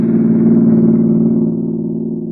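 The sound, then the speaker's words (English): A car motor runs smoothly with a steady, even low hum and rich tonal drone. The sound is loud and unbroken, with only a slight drop in level partway through and no voices. “That's a smooth-running motor you have there, Mary.”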